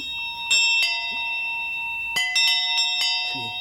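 Bells from a collection, each with a different clapper: several bright, ringing strikes with long sustained overtones, falling in two clusters separated by a short pause.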